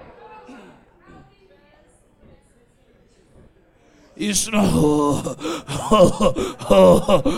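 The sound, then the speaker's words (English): A human voice imitates snoring with loud, rasping, gasping breaths that start abruptly after a stretch of quiet, faint sounds and continue in rough, uneven pulses. “Authentic snoring.”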